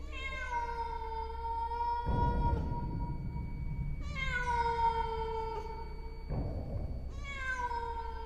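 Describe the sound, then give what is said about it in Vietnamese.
A white-furred cat meows mournfully in three long, drawn-out, tonal cries. Each cry is plaintive and steady, and bursts of low, rough noise fall between them. “Con mèo đứng đó, đôi mắt cứ lập lòe nhìn vào trong, rồi bất giác kêu lên những tiếng ai oán.”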